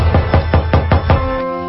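Knocking on a door: six evenly spaced, firm raps in a quick, regular rhythm, loud and heard without talk over them.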